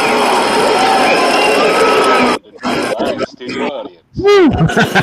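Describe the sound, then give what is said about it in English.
A fake studio audience lets out a loud, dense burst of cheering and clapping that cuts off abruptly after a couple of seconds. Short bursts of talking follow the cheering. “Recorded live in front of a fake studio audience.”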